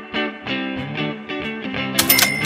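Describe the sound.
Short musical jingle played in by the editor: a quick run of bright, buzzy synth notes in a bouncy rhythm, finishing with a burst of sharp, bright noisy hits.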